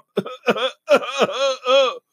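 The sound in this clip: Throat clearing to get rid of dust in the throat: a few gruff, voiced bursts, the later ones longer and drawn out, loud and alone.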